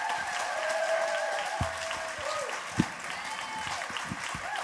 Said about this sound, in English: So let's just welcome him up here this morning. Let's stand and give him a hand.